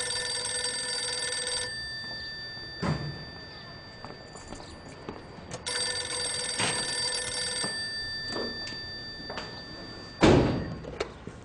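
A telephone rings in two long, bright electronic bursts separated by a pause, with a few dull thuds and knocks in the gaps.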